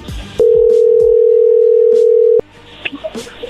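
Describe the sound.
Telephone dial tone heard before a number is redialled: a single steady, loud, mid-pitched tone lasting about two seconds, framed by sharp clicks and handling noise, with faint background noise continuing after it stops.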